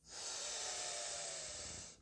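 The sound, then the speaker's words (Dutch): A slow, deep breath drawn in through the nose during a relaxation exercise, a soft, airy hiss lasting about two seconds that swells quickly, holds steady and then tapers off. “kunnen we nu gelijk even doen. Adem in door je neus.”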